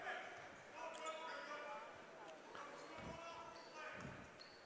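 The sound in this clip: A basketball is dribbled at the free throw line during a game. A couple of low, dull thuds about a second apart sit faintly beneath a steady crowd murmur.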